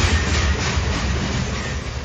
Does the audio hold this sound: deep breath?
no